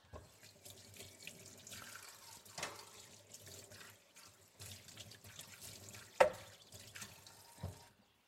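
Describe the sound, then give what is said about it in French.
Running tap water pours into a sink as a blender is washed right after making gazpacho, a steady rushing flow broken by splashes and a few clattering knocks, one sharp clunk standing out near the end. “Je vais faire ma petite vaisselle rapidement. C'est toujours plus facile de laver votre blender tout de suite, sinon ça sèche et après ça devient un petit peu plus galère.”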